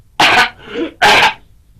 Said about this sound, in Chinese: 老方不由得嗓子眼一刺呀，咳嗽了两声。